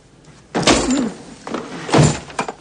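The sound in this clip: A harsh slap knocks over a chair, heard as two loud, heavy impacts with a thudding clatter and short gaps of quiet between them.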